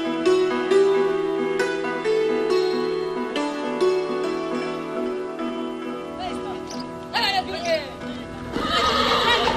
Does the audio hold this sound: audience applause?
no

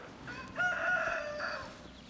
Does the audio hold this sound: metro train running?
no

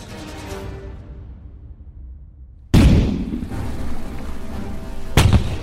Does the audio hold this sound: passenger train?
no

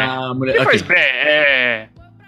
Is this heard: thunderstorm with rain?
no

